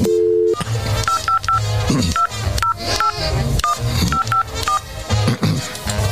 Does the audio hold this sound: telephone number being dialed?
yes